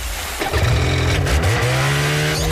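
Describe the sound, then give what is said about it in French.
Snowmobile engine revving at a water racing event, the final of a provincial championship: a loud, steady, low engine drone that starts suddenly and surges up in revs before holding at high speed. “Samedi 8 août pour la finale du championnat provincial de course de motoneige sur l'eau.”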